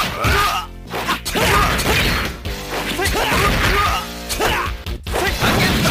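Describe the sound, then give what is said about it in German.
Punches and kicks from a fighting video game: many loud, rapid smashes and thwacks, with swooshes between the blows and only brief gaps. “Wir können ja einmal reinhören, wie sich so ein typischer Kampf in Garou anhört”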